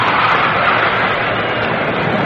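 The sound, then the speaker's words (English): Roar of a US Air Force jet flying over a baseball game, heard as a dense, loud, steady rumble that holds without a break for the whole clip. “That was not the fastball of Padres. That was one of fine jet aircraft of the United States Air Force.”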